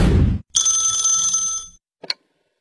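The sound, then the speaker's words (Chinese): A telephone rings with an incoming call: one sustained, bright bell-like ring of about a second, following a brief noisy burst and ending with a short click, with no talk over it. “正想着呢，又一个陌生来电”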